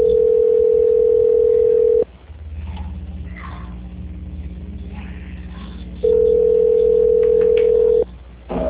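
Telephone line tones during a call transfer: two long, steady mid-pitched tones of about two seconds each, separated by several seconds of low line hum and hiss.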